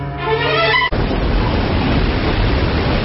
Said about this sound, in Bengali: বাইরে ঝড় চলছে পুরো মাত্রায়, বৃষ্টির জল এসে আছড়ে পড়ছে জানলার গায়ে